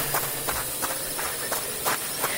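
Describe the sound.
Running footsteps fall in a quick, even rhythm, many steps in a row, over a constant noisy background with no talk.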